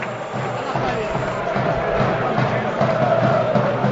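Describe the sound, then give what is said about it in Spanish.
A football stadium crowd cheers during a Huesca match in the first half, a dense, loud roar of many voices that holds steady for the whole stretch. “Escuchar al público.”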